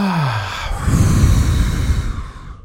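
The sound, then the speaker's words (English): A deep breath during a guided group breathing exercise: a slow, soft rush of air that swells in the middle and fades away at the end, with no talking. “Let's take a deep breath together. Lots of love in. Deep breath in. Exhaling lots of love out.”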